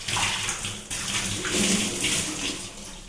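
Water pours and splashes, rinsing soap suds away in a steady gushing stream. There is a brief break in the flow near the start.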